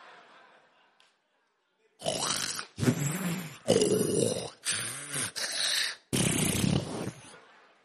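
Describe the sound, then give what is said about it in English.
A voice imitates loud snoring, likened to a hippopotamus about to give birth: a run of harsh, grunting snorts, loud and rough, after a quiet start. “Whilst you are snoring, you are snoring like a hippopotamus that is about to give birth.”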